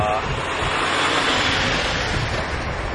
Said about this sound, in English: I don't know if you can hear me against all this massive trucks and things. This is a huge truck carrying